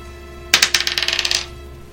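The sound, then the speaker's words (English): A twelve-sided die is rolled in a tabletop game, making a quick clattering run of many light clicks that tumble and fade within about a second. It is heard alone. “24 on the dice. That is a d12.”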